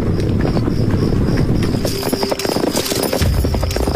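Cavalry horses of a Northern Wei army march through a remote valley, a dense, steady clip-clop of many hooves that stays loud and continuous throughout, with no talking.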